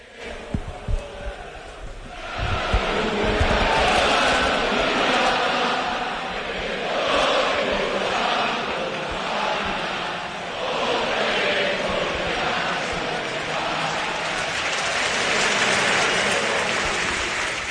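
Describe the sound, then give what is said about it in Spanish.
Football crowd at El Molinón in Gijón singing the Sporting de Gijón anthem a cappella before a match. A dense, sustained wash of many voices holds at a steady, full loudness throughout. “el público que canta a capela el himno del Sporting de Gijón. Vamos a escuchar el ambiente del Molinón.”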